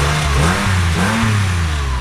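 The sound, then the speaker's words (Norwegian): A dark blue Porsche rolls up with a loud, steady engine hum whose pitch rises and dips with light revving, and no talk. “Nå kommer det en Porsche rullende her. Den er ganske fin. Mørke, mørke blå, ser som en mørk nattehimmel.”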